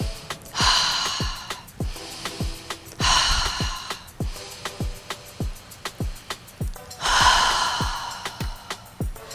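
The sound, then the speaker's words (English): Three long, airy breaths, drawn in through the nose and pushed out through the mouth, rise loudly over a steady beat of background music with sharp percussive hits throughout. “Let's take a deep breath right here through the nostrils and exhale through your mouth three times.”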